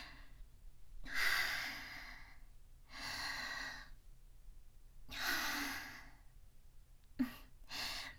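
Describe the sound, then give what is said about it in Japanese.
Deep, slow breathing: four long, airy breaths spaced a second or so apart, with a short sharper intake near the end. They are soft and hushed, and no one speaks. “ああ、深呼吸深呼吸。”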